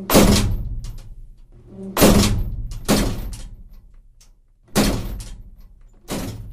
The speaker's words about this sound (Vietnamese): Tiếng đập mạnh của cánh cửa căn nhà mát trên sân thượng đóng vào, vang to lên khiến cho cả hai anh em giật nảy mình.